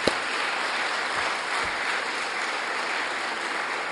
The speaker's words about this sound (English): Let's give them a big hand of welcome.